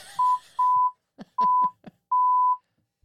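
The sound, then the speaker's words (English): Censor bleeps cut over a swear word: four sharp, high-pitched steady tones of uneven length, with brief clipped fragments of speech between them. “Beep yourself there.”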